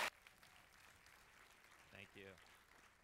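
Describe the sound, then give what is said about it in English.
Church audience applauding a guest missionary speaker at Victory Church Lakeside Village, faint, steady clapping for about three seconds, with a brief voice rising partway through. “I want you to put your hands together and give a great Victory Church Lakeside Village welcome.”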